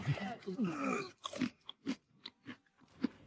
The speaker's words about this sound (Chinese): 吃着吃着好像没那么难吃，再吃竟还挺好吃。